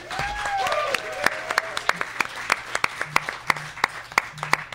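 An audience applauds to welcome a musical guest: sharp, scattered hand claps at an uneven rhythm, steady in loudness throughout.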